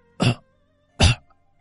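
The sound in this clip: Two dry, rasping coughs from a frail old man, each short and harsh, separated by a brief silence.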